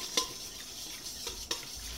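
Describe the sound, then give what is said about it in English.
A small pinch of yeast is mixed into pizza dough: a faint, soft stirring swish broken by two sharper scraping clicks, with the rest fairly quiet. “So mix that little bit of yeast, and it's going to go very slow and long.”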